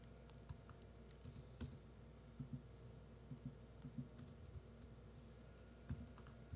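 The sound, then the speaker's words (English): Soft keystrokes on a computer keyboard as a city name is typed into a search, sparse and irregular taps with brief clusters, faint and with no talking. “Let me just type in Chicago.”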